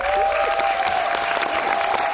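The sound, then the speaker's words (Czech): A theatre audience gives sustained applause at the end of a play's Polish premiere in Kraków. The clapping is dense and even throughout, with a thin, steady tone running faintly beneath it. “I diváci v Krakově na konci představení dlouho tleskali.”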